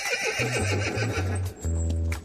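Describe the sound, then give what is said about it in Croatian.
A black horse ridden by a knight in shining armour toward a palace whinnies loudly while its hooves clip-clop throughout, the neighing rising in bursts over the steady hoofbeats. “vitez, blistar, u sjajnu oklopu na crnu konju jaše prema palači.”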